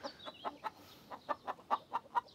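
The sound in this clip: Hens busy laying eggs cluck softly in a steady rhythm of many short, evenly spaced clucks, with a brief gap near the middle.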